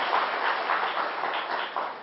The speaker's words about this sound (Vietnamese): Xin toàn thể đại chúng nhiệt liệt cho một tràng pháo tay.